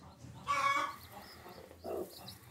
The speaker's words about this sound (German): Ihre Glucke braucht mit ihrem Küken jetzt einfach mehr Platz.